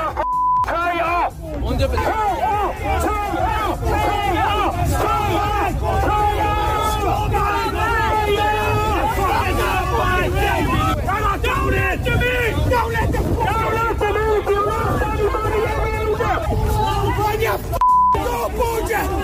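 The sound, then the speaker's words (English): An angry protest crowd jostles in a nasty scrum at Leinster House, a dense, loud and continuous mass of shouting voices that runs throughout, with a short high beep near the start and another near the end. “Now that kind of noise I never heard in all my years going to Leinster House, and I went up to some very big protests over the years. That scrum, that very nasty scrum,”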